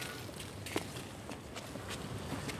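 Footsteps of people walking up stairs at a historic site: a few soft, irregular steps, faint against steady background noise.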